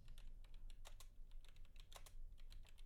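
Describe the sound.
Faint, rapid keystrokes on a computer keyboard while searching IMDb, irregular clusters of light clicks with no talk over them.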